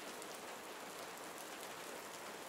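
Rain falls with a steady, faint, dense hiss that stays even throughout, with no separate drops standing out and no voices.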